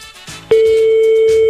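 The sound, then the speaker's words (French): A landline telephone rings down the line during a call to a home: after a moment of quiet background, a single steady mid-pitched tone starts abruptly and holds loud and unbroken to the end. “il faudra répondre à votre téléphone fixe”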